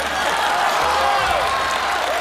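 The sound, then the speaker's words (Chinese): Wedding guests applaud together, a steady, dense wash of clapping that holds at an even loudness from start to finish. “朋友们鼓鼓掌吧。”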